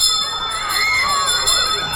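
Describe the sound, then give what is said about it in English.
A school bell rings continuously, a bright, metallic ringing that holds at a steady, even level from start to finish. “And there goes the bell. It's time for a school call.”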